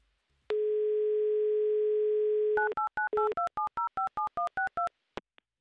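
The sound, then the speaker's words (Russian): A steady telephone dial tone hums for about two seconds, then a quick run of many short touch-tone beeps as a number in Yekaterinburg is dialed, ending with a couple of faint clicks. “Так, номер мы набрали.”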